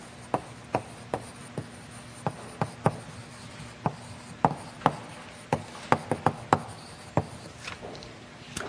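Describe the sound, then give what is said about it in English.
Writing by hand during a lecture on population genetics, a faint series of many short, sharp scratchy taps in an irregular rhythm, with no talk. “So let me uh, write this down”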